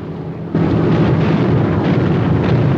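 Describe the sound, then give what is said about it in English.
Film explosions rip along a coastline backed by tree-covered hills: after a quieter opening, a sudden deep, booming roar breaks in and carries on as a sustained, loud rumble. “Explosions rip along a coastline backed by tree-covered hills.”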